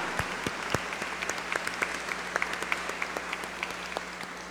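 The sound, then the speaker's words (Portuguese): Applause for Our Lady of La Salette at a pilgrims' night gathering, a loose, soft patter of individual hand claps that continues unevenly throughout. “Uma forte salva de palmas a Nossa Senhora.”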